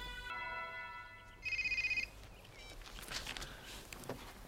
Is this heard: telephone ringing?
yes